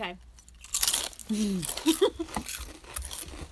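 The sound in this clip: Crisp crunching as someone bites into a rosemary and olive oil potato chip. A few sharp cracks come with chewing, and brief vocal sounds from the eater are mixed in.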